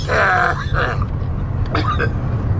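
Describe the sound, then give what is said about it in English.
A person choking, with strained, groaning voiced sounds and short grunts, loudest at the start and tapering into rough, uneven rasps. “Oh shit, bro, he's choking.”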